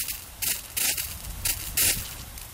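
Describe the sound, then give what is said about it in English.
Farm irrigation sprinklers hiss as they water a field. The faint spraying sound comes in repeated bright pulses roughly every half second, with no voices. “Usually when a farmer turns on his irrigation system to water a field, it sounds something like this, the familiar hissing of sprinklers.”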